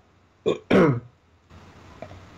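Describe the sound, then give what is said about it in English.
A person with a cough gives a harsh, throaty cough. Two rough bursts come close together, the second longer and louder, followed by a low, quiet background. “I see you've got a bit of a cough as well”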